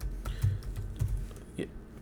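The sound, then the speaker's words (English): Faint typing on a computer keyboard: a few soft, irregular keystroke clicks with light low thumps. “I didn't have to finish the damn typing. It just popped up right there.”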